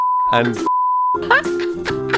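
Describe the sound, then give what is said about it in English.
Censor beeps: two steady, pure electronic tones cut through speech, the second longer than the first, both loud and flat in pitch. “Now, I'm guessing that there's going to be 5 beeps going into this one.”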